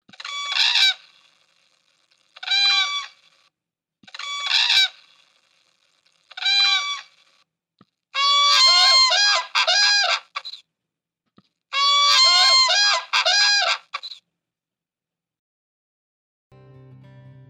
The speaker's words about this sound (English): The sound you're about to hear again is a whooping crane. Listen and imagine you're in a swampy marsh.